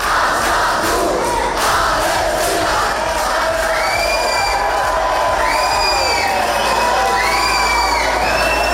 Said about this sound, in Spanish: Sonido de esos altercados, de esos disturbios ocurridos ayer en el aeropuerto de Bilbao.